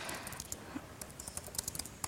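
Typing text on a computer keyboard: faint, quick, irregular key clicks tapping along continuously, with some keystrokes a little louder than others.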